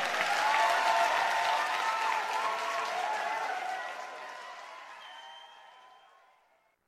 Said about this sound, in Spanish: Aplauso para Pablo Cifuentes, por favor.